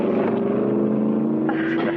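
A car's engine runs with a steady, low droning hum as the vehicle starts and drives off. The tone shifts slightly toward the end.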